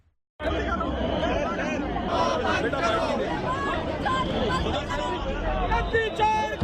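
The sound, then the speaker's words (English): Dense crowd babble from dozens of lawmakers marching in protest on the Election Commission of India's headquarters, a loud, continuous mass of overlapping voices and shouts that begins abruptly after a moment of silence. “Well, that is the sound of dozens of lawmakers led by opposition leader Rahul Gandhi marching on the Election Commission of India's headquarters on Tuesday.”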